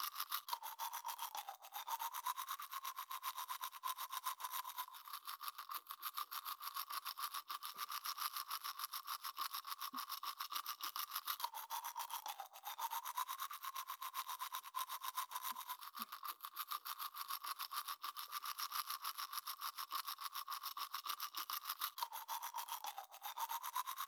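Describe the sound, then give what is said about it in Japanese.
Teeth are polished with a toothbrush, a soft, steady scrubbing hiss that runs unbroken throughout, quiet and alone with no voices. “あとは光を反射するくらいまで歯を磨いてまいります。”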